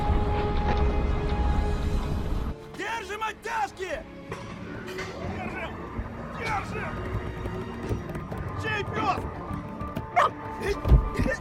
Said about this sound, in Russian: Прибегает пес.